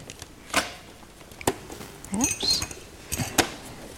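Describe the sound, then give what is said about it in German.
Cup and milk being moved on a table: a few faint clinks and soft knocks of handling, scattered through a quiet background. “Ich kann dir auch die Milch da vorne wegnehmen und die Tasse.”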